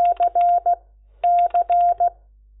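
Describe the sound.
Touch-tone telephone dialing of an outgoing call: two quick runs of short beeping keypad tones separated by a pause, clear and alone.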